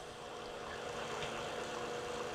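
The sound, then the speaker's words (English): Steady whirring hum of the oil pump on a homemade jet engine with an afterburner, running at an even, constant level without change, with no voices. “So here we go. Turn on the oil pump and adjust it to about 40 PSI.”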